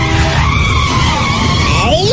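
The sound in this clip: Car tires skid in a loud, continuous squeal lasting about two seconds, with wavering high tones over a rumbling low end.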